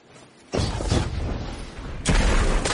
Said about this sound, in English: Bungie actually released a clip of how they've adjusted the sniper rifle. Let's take a look at that